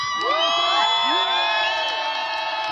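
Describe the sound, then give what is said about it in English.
A crowd cheers for a speaker at a rally outside the Israeli consulate in New York, a dense, continuous roar of many voices shot through with high whoops and shouts from start to finish. “It's one of the speakers being cheered outside the Israeli consulate in New York.”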